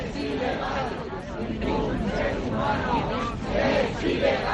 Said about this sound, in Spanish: Este es el sonido de la manifestación de este fin de semana en el barrio de Hortaleza, donde cientos de vecinos han marchado contra la aparición de una granada en el centro de Menas.